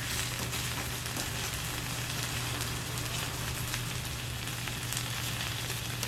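Takoyaki batter sizzles on a griddle with the heat turned down low, making a steady, continuous crackling hiss that is fairly faint and unbroken, with no talk.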